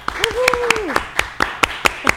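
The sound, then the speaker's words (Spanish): Audience applause for a guest on a talk show: evenly paced, crisp claps ring out in a steady rhythm, with a voice briefly heard over the opening claps. “le damos un aplauso”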